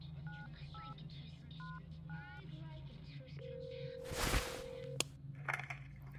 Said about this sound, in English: frantically dialed my wife